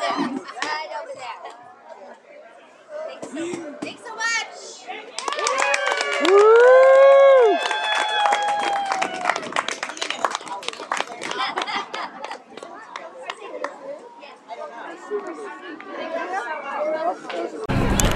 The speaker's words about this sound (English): I'm here at the May Day celebration, and here's a booth that says Share a Star Story.